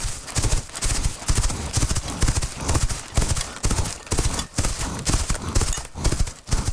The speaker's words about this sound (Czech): je kůň v pohybu. Jeho údery kopyt mají uhrančivý rytmus.